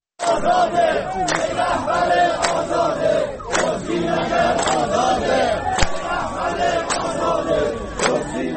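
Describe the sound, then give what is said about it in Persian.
A group of protesting retirees chants slogans in unison, loud, rhythmic phrases shouted by many voices, with brief pauses between lines and occasional sharp knocks cutting through the chant. “این صدای گروهی از معترضان در عراق است.”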